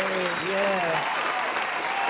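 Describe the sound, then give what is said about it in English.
Hand clapping for a woman at a gathering with praise and thanks, a dense, steady patter of applause throughout, with a voice speaking over it during the first second. “Let's give her a hand clap.”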